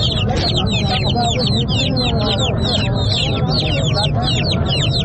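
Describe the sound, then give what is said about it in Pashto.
Dense chirping and calling from many desert birds for sale at a weekly Friday bird market in a town during spring, an unbroken layered chatter of high calls over a steady low background rumble. “دا د صحرایي مرغان دي چې د پسرلي د موسم په راتګ سره یې په شمیر کې زیاتوالی هم راځي”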